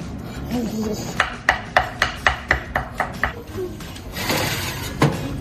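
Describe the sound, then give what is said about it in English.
A knife slices food into strips, a quick, even run of sharp taps against a hard surface, followed by a rougher scraping or rustling noise and a last knock. “We're just gonna slice these into nice little strips.”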